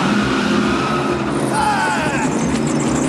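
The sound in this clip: A convertible car drives off with a steady, loud engine roar and road noise that holds throughout.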